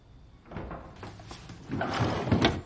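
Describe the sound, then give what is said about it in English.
A desk drawer being slid closed, soft and faint, with a few scraping, rumbling pushes that grow slightly louder toward a firmer final stop. “Closing the drawer, Abe”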